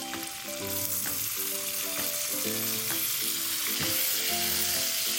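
Bamboo shoots and cured pork sizzle as they are stir-fried, a steady bright hiss of hot oil that runs without pause through the whole stretch.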